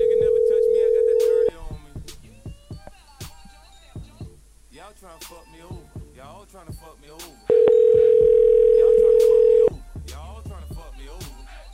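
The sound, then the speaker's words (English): Telephone dial tone from calls placed to a Santa-for-hire service: a loud, steady tone sounds twice, separated by several seconds of busier, uneven sounds. “Alright, I'm just going to keep calling Santas now for a little while.”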